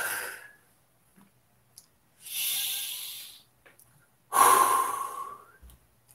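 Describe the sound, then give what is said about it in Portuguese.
Deep breathing during a guided breathing exercise: a short breath fading out at the start, then two long, airy, hissing breaths separated by a pause, with no talk. “Respira fundo.”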